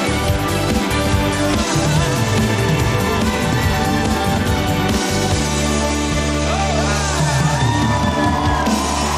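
Loud cheering for a live band at a concert: crowd yells and whoops ride over a thick, continuous wash of noise and sustained low musical tones throughout.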